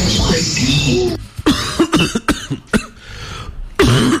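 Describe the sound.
A person coughing in a series of short, harsh bursts after a longer rasping stretch, with a throat-clearing quality to some of the hacks.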